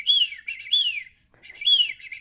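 A person whistles an imitation of a bird chirp: bright, high whistled phrases with notes sliding downward in pitch, two bursts separated by a short pause, fairly loud and clear with no talk.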